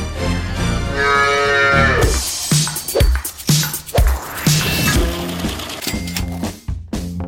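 Cattle mooing as a sound effect: a long, low, droning moo with strong harmonics fills the opening seconds, followed by further loud, lowing bovine calls and grunts broken by short pauses.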